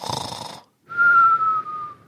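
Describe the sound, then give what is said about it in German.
A voice imitates a cartoon-style whistling snore: a short, raspy snort, a brief pause, then a steady, high, sustained whistle. “mir fällt gerade auf, dieses mit dem, warte mal, so schnarchen gibt's nur in Comics, oder?”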